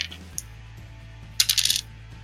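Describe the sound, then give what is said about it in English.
Dice, including d4s, are rolled on a table for damage in a tabletop role-playing game. A small click comes first, then a short, bright clattering rattle as they tumble and settle. “So I just roll the dice and double it? No, you roll double the dice. Yeah, you roll double the dice, and you add the damage modifier once.”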